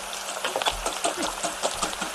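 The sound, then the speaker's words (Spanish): An egg sizzles as it fries in a pan in a small office kitchen, giving a steady, bright crackle with scattered pops throughout. “Me estoy ahora mismo, desde la redacción, que hay una pequeña cocina, me estoy haciendo un huevo frito. Mira, qué bien. ¿Escuchas?”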